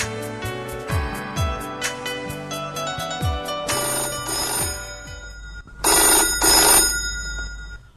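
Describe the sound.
A telephone rings for an incoming call to a radio phone-in quiz programme in Hassan, sounding as repeated electronic ringtone notes with quick falling tones, then louder noisy bursts near the end. Nobody speaks.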